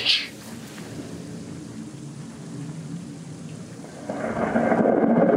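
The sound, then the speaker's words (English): Rumbling thunder under a steady rain-like hiss, swelling louder near the end, accompanies a humanoid figure of crackling blue energy spreading lightning wings in a tabletop fantasy game. “Suddenly, two vibrant wings of lightning open from its back like an angel.”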